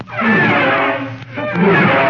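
Elephants trumpeting and roaring in loud, rough, harmonic bursts, with a brief dip in the middle before the calls resume.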